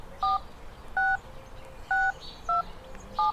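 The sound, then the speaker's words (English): Touch-tone keypad beeps entering a voicemail passcode: five separate two-tone presses at uneven intervals over a low, steady background hiss. “To access your voicemail, please dial your 6-digit passcode.”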